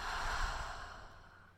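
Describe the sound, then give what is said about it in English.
A deep breath taken in and let out slowly: one soft, airy breath that fades away gradually, faint and without talk. “Deep breath in and out.”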